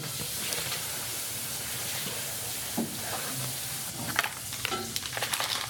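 Butter sizzles as it is added to hot golden, nearly brown caramel for Christmas cookies. A loud, steady hiss and crackle runs throughout, with a few sharper stirring knocks toward the end.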